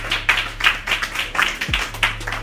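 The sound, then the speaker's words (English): An audience claps in quick, uneven bursts of crisp hand claps, moderately loud, over a low steady hum that briefly dips partway through. “Like, clap it up if you know what a cis is.”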